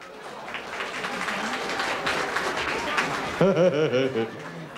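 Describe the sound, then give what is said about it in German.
Audience applause lingers after a singer's set at a live schlager show in Bad Breisig. Dense, steady clapping runs for about three seconds, then a voice enters over the last of it. “Während Renate der Beifall noch nachrauscht, kommt schon der nächste Künstler”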